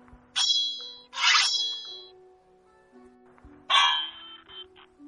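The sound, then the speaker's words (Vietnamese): Metallic clangs of a sword clashing against a saber blade: three bright, ringing strikes with a lingering high-pitched shimmer, each decaying over about a second, the first two close together and the third after a pause. “mà rút kiếm tới bắt Nguyên Thường. Nguyên Thường rút ra kinh lôi đao, không chút sợ hãi đón nhận.”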